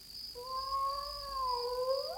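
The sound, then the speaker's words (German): A cat gives one long, drawn-out meow, a steady tonal wail that bends upward in pitch at the end, with a constant faint high whine underneath. “Ja, da miaut was.”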